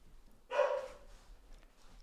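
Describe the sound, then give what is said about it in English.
A single short dog bark, faint and sharp, stands out against an otherwise quiet background. “Sorry, everybody. That's a dog.”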